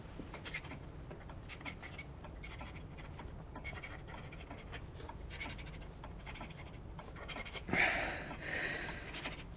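A quill pen scratches across paper while someone writes: faint, repeated scratchy strokes run steadily throughout, with a brief louder rustle near the end.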